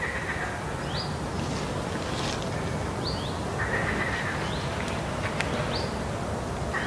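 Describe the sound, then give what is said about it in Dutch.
A chiffchaff gives its contact call, several short, thin, upslurred whistled notes spaced a second or so apart, standing out faintly above a dense, steady outdoor hiss with a few other light chirps. “Contactroep Chif Chaf.”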